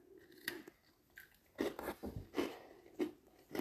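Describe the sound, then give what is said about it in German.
Faint crunching and chewing of a chocolate biscuit, a few crisp bites followed by irregular crunches and soft mouth sounds. “Und esse einen Keks. Mmh. Mmh, Schokolade.”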